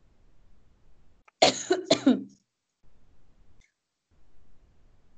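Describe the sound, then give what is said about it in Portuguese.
Coughing from someone who has choked: a cluster of harsh, loud bursts in the middle, between quieter breathy sounds, with a sharp onset right at the end. “eu engasguei.”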